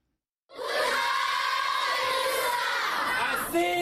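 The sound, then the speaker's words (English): Primary school children singing together at Minawawa refugee camp in northern Cameroon to welcome a visiting minister. A dense mass of young voices starts abruptly and holds loud and steady to the end. “Primary school kids at the Minawawa refugee camp in northern Cameroon sing to welcome Nigerian Interior Minister Abdurrahman Dambazou,”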